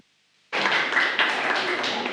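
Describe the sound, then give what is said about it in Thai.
Audience applause at the end of a product presentation on an orange juice, syrup and honey drink. Dense, even clapping starts abruptly after half a second of near silence and continues steadily to the end. “ปรบมือด้วยครับ”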